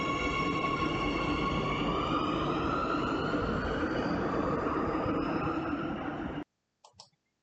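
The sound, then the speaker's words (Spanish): Rumbling ride inside a metro train in Madrid, loud and steady for about six seconds with a rising electric motor whine layered over broad noise, then cutting off abruptly, followed by a few faint brief knocks. “Tomamos el metro para llegar al centro de la villa”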